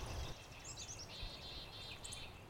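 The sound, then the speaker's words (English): Birdsong from courting chickadees in a shrubby thicket of spring shrubs not yet in leaf: several high, clear chirps and whistled notes, fairly faint, with a brief low thump near the start. “It's a thicket here with lots of shrubbery, and it's just alive with birdsong this morning. Courting chickadees here, right in front of us on the right of the trail.”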